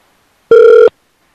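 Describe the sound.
A single brief electronic telephone ring: a steady, buzzy tone with a slight warble, lasting under half a second and heard alone with no talk.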